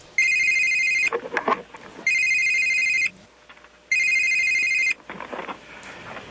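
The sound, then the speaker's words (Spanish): A telephone rings at a political party's headquarters: three loud, bright electronic ring bursts, each about a second long, separated by short quieter gaps, with no voices. “Y llamaron a la sede del Centro Democrático.”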